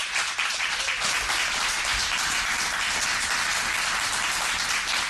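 An audience applauds to welcome a band onto the stage at the start of an evening concert. The clapping is full, even and continuous, holding steady at a constant level throughout.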